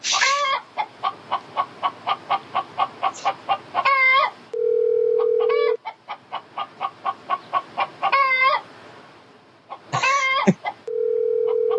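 Chicken clucking played down a telephone line as a prank call: quick rhythmic runs of many clucks broken by a few louder squawks, with flat, steady phone tones sounding between the bursts.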